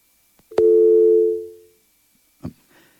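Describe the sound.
A telephone line tone accompanies an incoming call. A sharp click opens a single sustained mid-pitched tone that holds for about a second before fading out, and a brief muffled knock follows a moment later.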